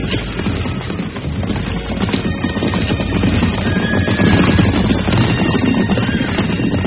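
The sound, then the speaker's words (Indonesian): Hoofbeats of several horses carrying mounted soldiers riding with care, a dense, continuous clatter that stays fairly loud and even throughout, with no voices. “Mereka tetap berkuda dengan hati-hati.”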